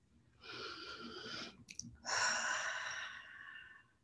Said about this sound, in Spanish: Simplemente eso, inhalar, conscientemente exhalar.